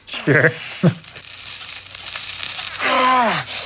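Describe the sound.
A hot knife sears skin in the film Rambo First Blood Part II with a hissing sizzle, set between brief vocal cries, the last one a longer strained yell.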